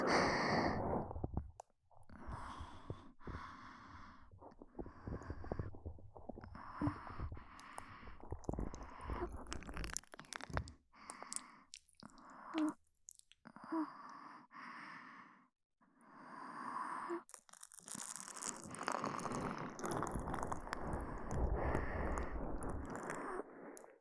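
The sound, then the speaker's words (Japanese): Slow kneading of the ear folds and rubbing behind the ear during an ear massage gives soft, squishy rubbing and friction in irregular bursts, with gentle breathing and sighs between them. “ひらひらも丁寧にもみもみして、お耳の裏もまんべんなく、”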